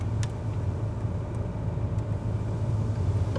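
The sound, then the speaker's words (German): Steady low engine rumble of a car driving slowly along a road in Sweden, a constant drone with no clear change in pitch. “In Schweden fährt man langsam.”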